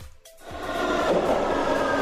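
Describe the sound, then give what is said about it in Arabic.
A subway train arriving: after a brief hush, a deep rumbling roar quickly builds and then holds steady and loud until the end. “هالمرة وصل مترو عن جد، ايه خلص، وتوجه دغري على الهند”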